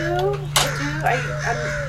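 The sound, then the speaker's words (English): A person imitating a crow's call with the voice, giving a few harsh, caw-like vocal sounds over a steady low hum. “Here, I'll do the crow call.”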